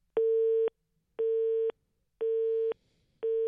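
A telephone busy signal on a call to a mobile number: a steady low tone pulsing on and off at an even rhythm, with three full beeps and a fourth cut off at the end, alone with no talk.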